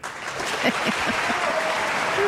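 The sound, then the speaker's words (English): A brief burst of audience applause, with many hands clapping in a steady, fairly loud patter. “Oh, maybe some applause for him, too.”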